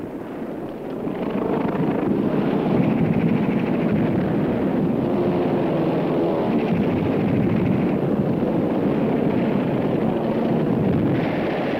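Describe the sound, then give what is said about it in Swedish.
Enemy fighter planes approach with a continuous, heavy engine roar. The drone swells in the first second, then holds steady and loud throughout without any voices. “Men nu kommer den fientliga jakten. Ska den kunna driva undan våra störtisar?”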